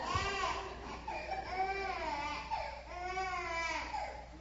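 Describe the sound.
Infant fussing during a worship service: soft, whiny cries and whimpers that rise and fall in a few drawn-out wails, faint and continuous.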